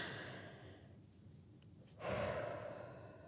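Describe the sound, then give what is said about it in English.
A deep breath taken in and out, heard alone without talk: a soft, breathy rush that swells into a louder, fuller airy phase partway through, then eases off gradually. “I need a deep breath. So I'm going to take one.”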